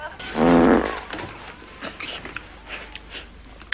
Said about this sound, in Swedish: Du kan du klippa in när Lasse Berghagen säger det var soffan som lät när han fjärtar.